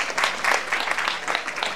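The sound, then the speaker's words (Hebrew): Audience applause for two women who came from Kiryat Shmona: brisk, lively crowd clapping with a fairly even pulse throughout. “אני רוצה שנמחה כפיים לשתיים שהגיעו לכאן מקריית שמונה.”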